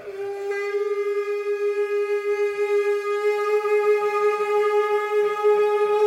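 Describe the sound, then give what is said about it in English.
Kangling, a Tibetan Buddhist ritual horn made from a thigh bone, sounding one loud, steady, sustained tone with a rich buzzing edge, held at the same pitch for about six seconds. “That's the sound of a congling, which is a horn used in certain Tibetan Buddhist rituals. Traditionally, conglings are made from human thigh bones.”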